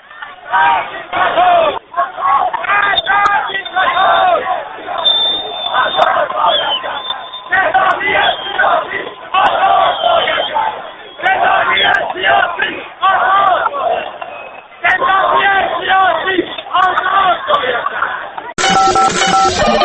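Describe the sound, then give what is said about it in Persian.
A protest crowd chants on Karim Khan bridge in Tehran, loud rhythmic phrases repeated in bursts with short pauses in between. “این همسی این صدای ملت ایرانه.”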